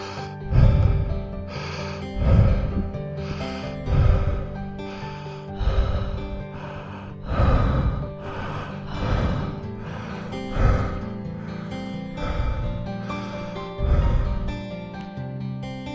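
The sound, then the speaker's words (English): Connected breathing, each inhale flowing straight into the exhale without a pause, in a steady cycle of loud, airy, slightly rasping breaths that repeat about every one and a half seconds. “in a connected manner, with no pause between the inhale and exhale. It is one breath. Nothing but the breath.”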